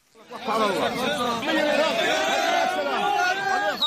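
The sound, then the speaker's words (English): An excited crowd in Gaza cheers as families welcome relatives released from Israeli prisons. Many overlapping voices shout and call out, swelling in quickly at the start and then holding at a loud, busy level. “This is the sound of cheering in Gaza. Families welcoming relatives released from Israeli prisons earlier this year.”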